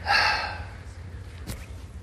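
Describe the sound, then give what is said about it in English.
A person breathing out during a group breathing exercise: one breathy exhale, strongest at the start and fading over about half a second, followed by faint hiss. “everybody take a breath in. Now breathe out.”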